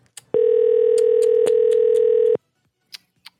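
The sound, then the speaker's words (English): A landline telephone ringing tone sounds as a call goes unanswered: one loud, steady buzzing tone of about two seconds, then near silence with a few faint clicks. “Try another number, maybe. Just rings forever.”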